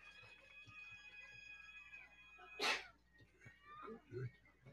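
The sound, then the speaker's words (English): A person imitates a cat's meow with a short, faint mewing sound, set against a quiet background with steady electronic tones and a brief sharp burst. “I stretch my leg straight up in the air and I meow.”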